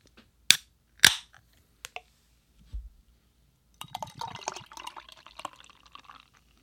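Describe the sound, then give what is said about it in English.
A can of Chicago's Very Own golden lager, a 5% beer, cracks open with two sharp metallic snaps, then a few soft clinks and a fizzy pour that bubbles for a couple of seconds before fading. “This is a golden lager at 5%, so let's crack open Chicago's very own.”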